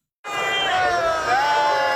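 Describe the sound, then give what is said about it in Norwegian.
A crowd cheers for the Uno-X cycling team in front of the Arc de Triomphe in Paris at the Tour de France finale. The loud roar starts abruptly, then holds steady with shouts mixed in. “Det jubles for Uno X foran triumfbuen i Paris.”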